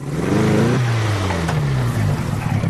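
A car engine with a Spanish-made motor runs loudly and steadily. Its hum climbs slightly, then drops abruptly to a lower drone that sinks gradually in pitch.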